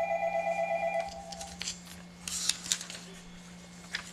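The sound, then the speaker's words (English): A telephone rings with an incoming call: a steady electronic ring tone sounds for about a second, then stops. Faint clicks and rustles follow. “we got a caller calling in. Let's see what we got.”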